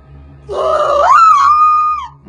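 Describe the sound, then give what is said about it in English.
A woman's signature monster-movie scream, aged badly, comes out as a strained, groaning wail. It starts low, climbs to a higher pitch it holds briefly, then sags away, over a faint low hum. “Unfortunately, her scream hadn't aged well.”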